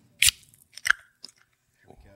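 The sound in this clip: A can of Ardmore Amber beer in a knit koozie is opened with two sharp, crackling bursts close together, then a few faint ticks, and a brief quiet voice near the end.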